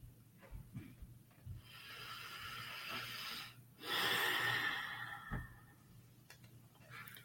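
Soft breathing during a guided breathing exercise, faint and airy throughout, with one deeper, louder breath standing out midway before it settles back to quiet breaths.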